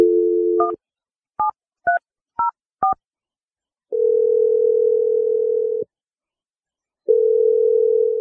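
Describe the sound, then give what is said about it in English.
Telephone dialing a number: a steady dial tone, then five quick touch-tone key beeps, followed by long steady ringing tones separated by a silent gap. “we're going to take that energy and we're going to dial Jarrett's number and see what he has to say”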